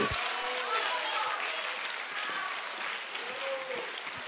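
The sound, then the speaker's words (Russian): Stormy applause from the audience at an awards ceremony and gala concert, a dense, even roar of clapping that holds steady for the whole stretch, with a voice faintly present beneath it. “Бурные аплодисменты.”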